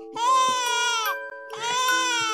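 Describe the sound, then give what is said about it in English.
A man imitates a baby crying in a tantrum with his voice: two long, loud, wailing cries with a nasal, bleating quality and a short gap between them. “I'm going to throw a right tantrum now”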